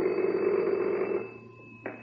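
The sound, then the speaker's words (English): An old-fashioned telephone bell rings in an inspector's office at a police detachment: one sustained ring that cuts off partway through, followed by a brief click near the end. “Before long, the inspector's phone rang.”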